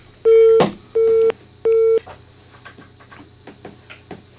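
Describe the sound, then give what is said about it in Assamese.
A telephone call is connected on a phone line: three steady, mid-pitched tones sound in a row, then faint line noise with soft clicks. “আৰু এগৰাকী শ্ৰোতাক আমি phone লাইনত সংযুক্ত কৰিব বিচাৰিছোঁ।”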